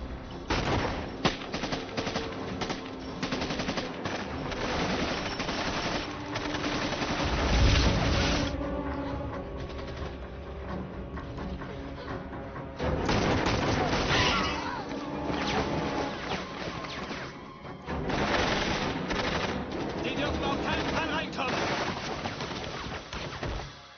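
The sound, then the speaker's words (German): Sustained gunfire from guns being fired: dense cracking shots and rattling volleys run continuously and fairly loudly, swelling in a few heavier bursts. “Jetzt nicht mehr! Weiter schießen!”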